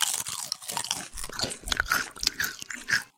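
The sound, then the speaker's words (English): Crunching and chewing of a spicy snack, with many crisp, crackly bites in quick, irregular succession. The sound is fairly loud and heard alone, with no talk. “I really like the flavor that fills your mouth as you crunch down”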